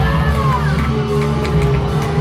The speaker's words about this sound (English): Now, it's strange that they're booing this guy.